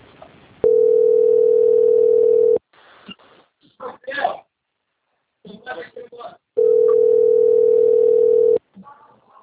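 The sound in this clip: A steady, mid-pitched telephone line tone plays while a bank call is transferred, in two long stretches of about two seconds each. Brief speech fills the gap between them.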